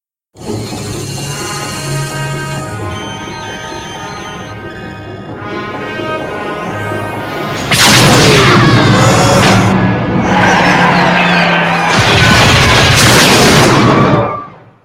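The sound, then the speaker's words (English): A spaceship firing on a satellite, which explodes. A sustained droning hum gives way to a loud blast, then a second heavy explosion, with swirling noise and sweeping tones that end abruptly. “The bird of prey fires at the satellite.”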